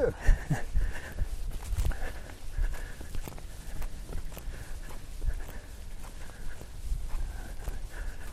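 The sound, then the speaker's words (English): A runner's footsteps on a slimy, muddy trail make a steady stream of many quick, uneven thuds and scuffs, with loudness rising and falling throughout. “And here comes somebody running on the trail behind me. I'll get out of his way.”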